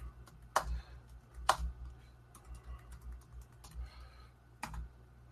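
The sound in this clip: Soft typing on a computer keyboard, irregular key clicks at low volume with a few sharper, louder taps standing out among lighter keystrokes.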